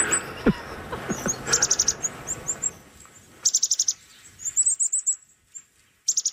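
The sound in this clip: Wild birds call back to bird calls played from a phone app: several separate bursts of rapid, high-pitched chirps and tweets, each a quick run of notes, come between fainter calls over a quiet background.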